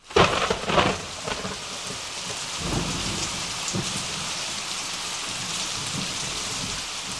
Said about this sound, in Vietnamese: trên nóc điện mưa rơi như phóng, rào rào chảy ràn rụa qua sân